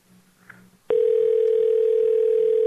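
A steady telephone line tone heard while calling someone. It starts abruptly about a third of the way in and holds at one unbroken pitch, loud and alone, to the end, after a short faint stretch of low noise.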